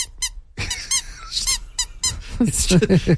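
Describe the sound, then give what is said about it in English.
A rubber duck toy shaped like a Jeep duck squeaks as it is fiddled with: a few sharp, high, whistly squeaks at the start and in the middle, then a person talks. “I have a duck over here. It's one of the Jeep ducks, and I always forget that this one squeaks”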